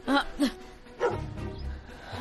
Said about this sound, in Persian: بیا اینجا سگم. آروم بگیر.